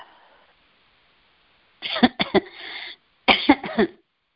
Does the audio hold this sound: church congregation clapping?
no